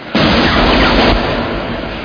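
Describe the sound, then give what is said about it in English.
Gun turrets tracking and firing at multiple targets: a loud, dense burst of rapid fire that blasts for about a second, then carries on as a steady roar at a slightly lower level. “A and B gun tracking and firing. Multiple targets. Those ammo counters go.”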